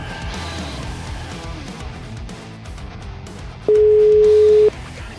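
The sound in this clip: Italian ringback tone of an outgoing telephone call: a single steady, loud one-second beep at a constant pitch over a continuous bed of background music.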